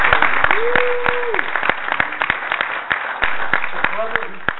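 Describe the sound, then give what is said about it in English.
Clapping and cheering from an audience greeting guests at a gathering: uneven, fairly sparse sharp claps with a sustained vocal whoop early on and voices calling out near the end. “Let's give them a great cheer.”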